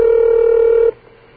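A telephone tone sounds for a call to an unlisted 706 area code: one steady, held electronic tone at even loudness that cuts off abruptly after under a second, leaving near silence.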